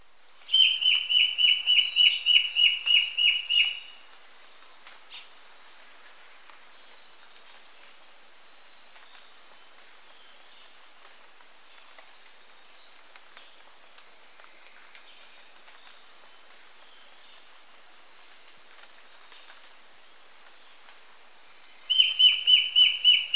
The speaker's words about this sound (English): Immaculate Ant Bird.